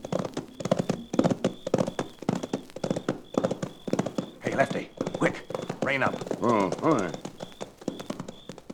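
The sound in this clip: Horses' hooves clip-clop in a steady, regular rhythm as riders approach. Men talk over the hoofbeats throughout.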